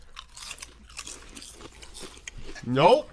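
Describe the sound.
Biting and crunching into squid-flavoured seafood chips: a crisp, brief crunch toward the end, following stretches of talking.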